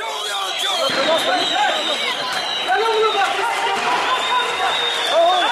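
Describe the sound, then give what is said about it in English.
Dense crowd noise from thousands of Kurds demonstrating in the streets of Diyarbakir to mark the anniversary of a Kurdish leader's arrest: a loud, continuous mass of overlapping shouts and voices that holds steady throughout. “The sound there of thousands of Kurds taking to the streets this week in the city of Diyarbakir”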